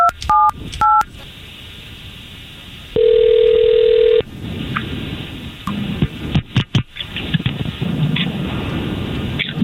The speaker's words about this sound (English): all we're going to do here is we're going to try to call this young lady